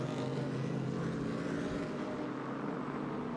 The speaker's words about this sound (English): Ollie Jarvis has the Cadillac of Neil Chani right on his wheel tracks.